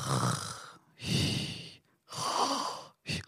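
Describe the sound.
A voice imitates snoring with three long, breathy, rasping breaths separated by short pauses, then one brief, sharper snort-like breath at the end.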